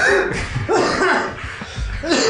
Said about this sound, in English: Sorry, just coughed a bit inside of the trip tank we have here.